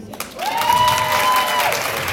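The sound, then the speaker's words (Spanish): Audience applause at a community gathering: a dense, steady patter of many hands clapping that stays fairly loud throughout, with a held vocal tone briefly rising over it in the middle. “denle un aplauso a”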